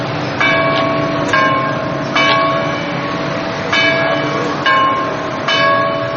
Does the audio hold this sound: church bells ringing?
yes